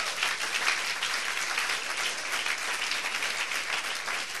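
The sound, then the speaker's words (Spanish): Congregation applauding during a church service, with dense, steady clapping sustained at an even level throughout. “Dele ese aplauso fuerte al Señor.”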